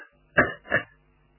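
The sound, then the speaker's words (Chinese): A soft, light cough given by a man as a polite greeting, imitated by a voice as two short, gentle throat-clearing bursts in quick succession, then quiet. “先轻轻的咳嗽一声，别把他爹吓着，先打个招呼。”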